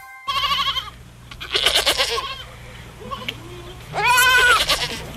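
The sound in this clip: A white goat and its newborn mottled kid bleat in three wavering calls separated by pauses, the last one loudest and longest, over a steady low hum.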